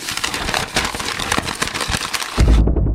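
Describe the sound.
A voice imitates a leaf beetle rustling through leaves, making loud, continuous crackling and scratchy rustling noises that run without a break.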